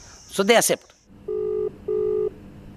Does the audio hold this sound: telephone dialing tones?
yes